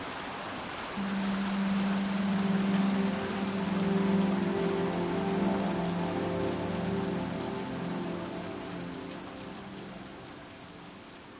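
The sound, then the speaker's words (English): Steady rain falls on a surface, a dense, even hiss of many drops that stays loud for most of the stretch and eases slightly toward the end, with a low tonal hum beneath it. “And once the rain stops and the waters begin to recede and things begin to dry up, that creosote smell, just as gently as it came in, begins to sort of fade out.”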